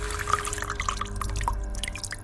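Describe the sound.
Water drips from an old, creaking bathroom tap, a few bright plinks landing irregularly over a continuous hiss of flowing water.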